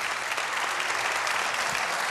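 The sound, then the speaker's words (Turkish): Audience applause after a musical performance in Turkey: steady, dense clapping from many hands that holds at an even level throughout, with no voices over it. “Efendim çok teşekkür ediyorum kıymetli alkışlarınıza.”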